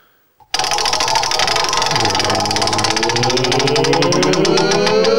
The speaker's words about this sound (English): Do you mind reaching back there and spinning that magical wheel of musical fortune for us?